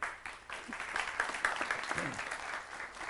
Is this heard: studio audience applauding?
yes